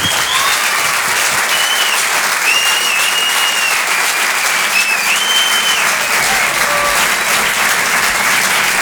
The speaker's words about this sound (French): s'il vous plaît, une ovation pour Anne Roumanoff.